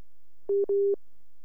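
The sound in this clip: A WhatsApp call drops and plays its reconnecting tone: two short, steady, mid-pitched beeps, the second longer than the first, alone against silence.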